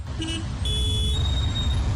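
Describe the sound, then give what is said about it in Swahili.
Car horns sound in a traffic jam: a short, high beep, then a longer sustained high-pitched honk over a constant low rumble of stalled traffic. “Magari kadhaa pia yameishiwa mafuta. Traffic jam kama lote. Magari sogei.”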